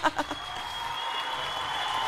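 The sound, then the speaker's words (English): Applause given in self-congratulation for winning an award: a few sharp, distinct claps at the start, then a steady, dense wash of clapping that carries on to the end, with no talk. “I'm going to give myself a round of applause.”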